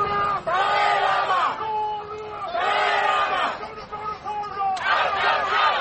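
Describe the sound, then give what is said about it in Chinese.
Protesters chant slogans, including the Dalai Lama's name and 'shame on China', during Xi Jinping's state visit to Britain. Three loud phrases of massed voices come in a rhythmic chant, with crowd noise between them. “现场可以听见抗议者呼喊达赖喇嘛的名字以及中国耻辱等口号。”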